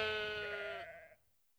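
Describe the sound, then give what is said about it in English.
A lamb bleating on a farm: one faint, wavering bleat about a second long that fades away, with no other voices. “Oh, look at the lambs. Oh, yes. Why are they running? Look, they can see the farmer. He's feeding them.”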